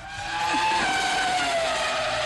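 A loud car sound effect used as a jingle, with engine roar and a high tonal whine that slowly falls in pitch, steady throughout.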